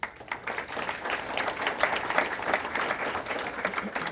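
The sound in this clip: An audience applauds to welcome two speakers to a conversation about Islam, with steady, dense clapping from a crowd that holds at an even level throughout.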